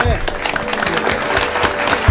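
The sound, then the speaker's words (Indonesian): Applause for the band Sound of Panca after the release of their new full album. The clapping makes a steady patter at moderate loudness, with talk layered over it. “Kita kasih tepuk tangan dulu ya.”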